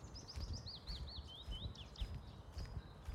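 Birds chirp in a garden allotment beside a lake, a quick run of many high, sweeping chirps. They are faint, over a low rumble of wind blowing in from the water.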